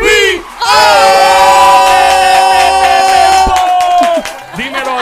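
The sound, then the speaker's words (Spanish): A crowd cheers and applauds loudly as an effect introducing an urban singer at a concert hall. Sustained whoops and shouts rise over the noise, briefly dip, then surge again. “Va a tener aplausos de multitud.”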